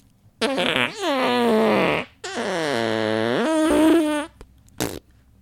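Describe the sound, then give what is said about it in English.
A voice imitating a fart: two long, drawn-out buzzy raspberries, then a short final blip. “God, I'm so good at doing fart noises.”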